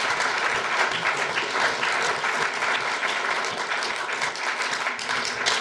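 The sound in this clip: Audience applause after a speaker's talk: a steady, dense wash of many hands clapping that stays loud and even for the whole stretch.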